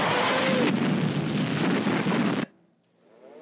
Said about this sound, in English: That's just the, you know, what they would hear every time a bomb would drop.